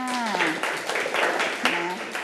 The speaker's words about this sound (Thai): ไม่มีปรบมือให้กับแก้มค่ะ